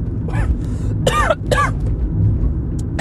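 Coughing and throat clearing from someone whose drink went down the wrong pipe: a few harsh, separate bursts, the first softer and the later two loud, over a low steady hum.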